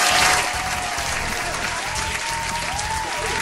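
Applause from an audience, a thick, even patter of many hands clapping, slightly louder at the start and then holding steady to the end.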